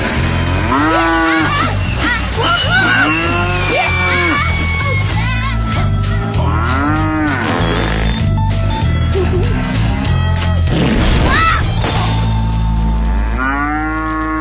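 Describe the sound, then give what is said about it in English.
Cattle on a farm moo again and again, with loud, drawn-out lowing calls that overlap and follow one another throughout. “I learned cows don't find bottle rockets as funny as I do.”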